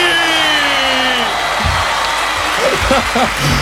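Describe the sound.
Festival Bar stadium audience does the wave with a continuous roar of cheering and applause, and voices shout over the crowd.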